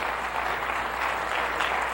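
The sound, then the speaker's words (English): Audience applause at a church sermon: dense, steady hand clapping from many people that stays even and fairly soft throughout, with no talk over it. “And give Jesus a hand clap.”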